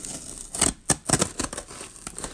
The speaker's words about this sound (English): Let's just cut into this and